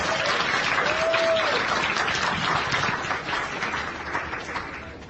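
Dense, steady applause from a church audience welcoming a mission team from Togo. The clapping runs continuously through the whole span and eases slightly toward the end.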